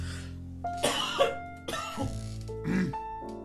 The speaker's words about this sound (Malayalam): ഭയങ്കര ചുമ അങ്ങനെ ഭയങ്കര ചുമയില്ല കേട്ടോ